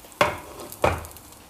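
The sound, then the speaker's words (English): Eggs with cheese cooking in a pan: two brisk scraping strokes, as if stirring, rise over a low, steady sizzling hiss that continues throughout. “Now let me turn the pan off now. Because I don't want to burn the eggs.”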